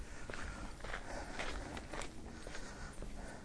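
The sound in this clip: Footsteps on a daily walk, faint and regular, each step a soft scuffing tap repeating at an even pace over low background noise.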